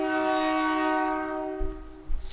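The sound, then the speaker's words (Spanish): A train horn sound effect sounds as one long, steady, multi-toned blast that slowly fades, followed by a couple of low thumps at the end. “Ah, ¿no vas a poner el tren? hey, podría cerrar este episodio con el tren.”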